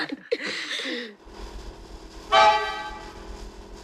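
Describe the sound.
A car horn honks once, short and loud, as a father's car arrives, the blast rising above a low rumbling background.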